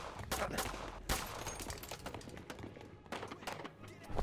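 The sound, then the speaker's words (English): Video game gunfire laid down as covering fire in a back alley: many sharp shots crack out in rapid, irregular bursts, with louder single reports standing out among the volleys. “I'm gonna lay down some covering fire.”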